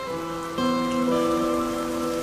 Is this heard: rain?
yes